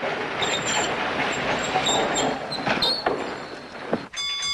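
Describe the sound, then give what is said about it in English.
A trolley train rumbles steadily along the rails. High, thin wheel squeals ring out over the dense clatter, and the sound shifts near the end as the car slows. “As the trolley slows to a stop, the young blonde woman stands up.”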